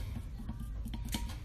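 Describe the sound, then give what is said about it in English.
Chocolate and cream being mixed in a bowl gives a steady, fairly loud scraping and stirring texture with a few sharper scrapes along the way. No one speaks. “and mix. It's cool if it seems like it's just gonna be a fucking shit ton of chocolate in a bowl of cream. It'll come together.”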